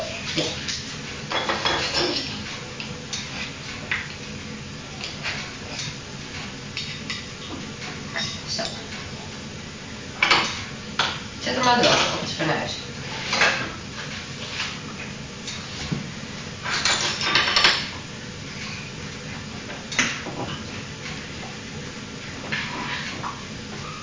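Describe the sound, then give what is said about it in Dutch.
A frying pan handled on the stove as butter goes in for pancakes, with a few loud metallic knocks and scrapes of cookware amid people talking. “Ja, doe jij de boter maar in de pan.”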